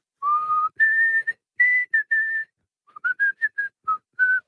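A person whistling a melody alone: clear, pure notes, first a phrase of longer held tones, then after a short gap a quicker run of brief notes that hop up and down in pitch.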